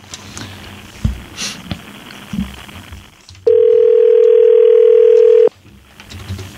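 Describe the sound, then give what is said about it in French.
Ringback tone on an outgoing telephone call: one steady, loud electronic tone lasting about two seconds. It rises out of a low rumbling background with scattered soft clicks and returns to that background when it stops. “Oh, ça sonne. Okay, ça sonne.”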